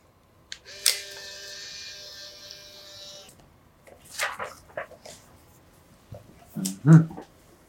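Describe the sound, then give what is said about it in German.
A camera taking a quick photo gives a sharp shutter click, then a steady whirring motor hum for a couple of seconds. A few faint scattered noises follow. “Und bevor Sie sich eintragen, machen wir noch ein schnelles Foto.”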